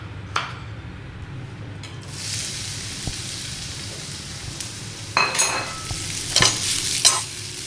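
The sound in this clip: Carrots tossed in butter with a little pepper sizzle softly in a pan, a steady low hiss broken by a few stirring scrapes and light utensil clinks.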